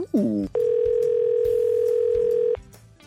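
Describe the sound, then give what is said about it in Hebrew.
A telephone dial tone sounds while a call is being placed. The steady, unwavering tone holds loudly for about two seconds after a brief sound at the start, then cuts off to a faint background. “אנחנו נתקשר לאלון שבו.”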